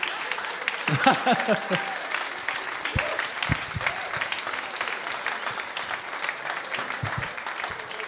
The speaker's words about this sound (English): But again, huge round of applause for Mickey!